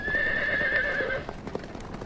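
A horse lets out a long, high whinny, followed by sharp clattering hoofbeats, as two horse-drawn carriages rush at speed across a street.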